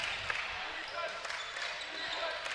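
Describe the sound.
Basketball dribbled on a court during a game, a few soft bouncing thuds under steady crowd noise and murmuring voices.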